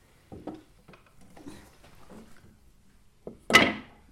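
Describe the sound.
A square wooden stick lock in a sliding window, pulled up by a string: a few soft wooden knocks and light rattles, then one sharp, loud clack near the end.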